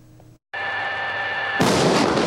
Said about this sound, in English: The sound of artillery rings through the sky. Two CM-11 Brave Tigers destroy their target